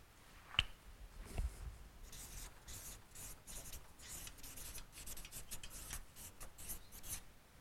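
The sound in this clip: Handwriting with a pen, faint scratchy strokes in an irregular rhythm, with short bursts of friction and a couple of soft taps near the start.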